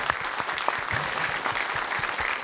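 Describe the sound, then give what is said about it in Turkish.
Audience applause in honour of a fellow craftsman's work: a continuous, even bed of many hands clapping, moderately quiet, with scattered sharper claps standing out. “Alkışlar biraz da ona olsun.”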